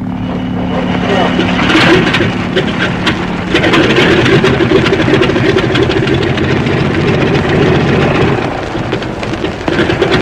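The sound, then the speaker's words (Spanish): A small aircraft's engine starting up, settling into a steady, loud droning hum that swells into a fuller, rougher roar partway through and stays constant to the end. “Encendió el motor. El pequeño aparato se estremeció”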